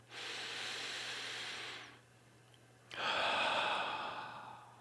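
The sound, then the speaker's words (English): A deep breath is drawn in, a long steady airy inhale held at an even level, then a brief pause before a longer, slightly stronger exhale streams out, with no voices. “Just do that right now. Just take a deep breath.”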